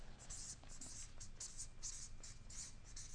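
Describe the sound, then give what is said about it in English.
Faint pen strokes writing out the word compassion: a run of many short, scratchy strokes in an uneven rhythm over a quiet background. “So below the word love, I'll write the word compassion.”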